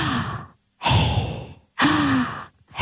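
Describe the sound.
Rhythmic breathing exercise played sped up: loud, breathy inhales and exhales come in quick alternation, each lasting under a second and cut off by short silences, with a faint voiced tone running through some breaths.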